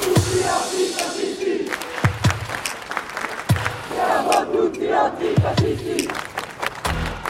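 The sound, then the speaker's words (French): Several hundred protesters chant together at Place Saint-Michel in Paris during a rally remembering Clément Méric, with rhythmic massed voices punctuated by sharp percussive hits. “il y a plusieurs centaines de personnes là, sur la place Saint-Michel. Il y a une banderole qui a été tendue.”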